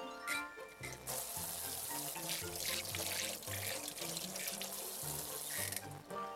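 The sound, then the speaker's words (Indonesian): A tap runs into a sink while hands are washed: a continuous, fairly quiet rush of water that goes on the whole time. “ya udah deh aku cuci tangan dulu ya”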